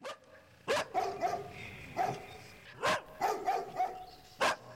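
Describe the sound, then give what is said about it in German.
Dogs barking far off at night beyond a moonlit forest: many sharp barks and yips in an irregular rhythm, moderately faint over a steady background. “Von weitem höre ich Hunde bellen.”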